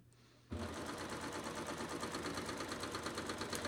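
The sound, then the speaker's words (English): Baby Lock Enlighten serger stitching fabric at a 2.5 stitch setting: after a brief near-silent moment it starts abruptly, then a steady, loud, rapid mechanical whir and buzz runs on without pause. “My machine's not moving quite as fast because it's taking more stitches, okay?”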